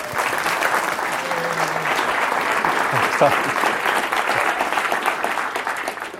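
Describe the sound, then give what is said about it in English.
An audience at Stanford applauds to welcome a speaker. The clapping is loud, dense and continuous and holds at an even level for the whole stretch. “So now let's give this guy a warm Stanford welcome.”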